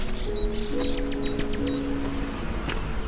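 Birds singing among the trees of a town square give a quick run of short, high chirps, faint over a steady low hum and background noise.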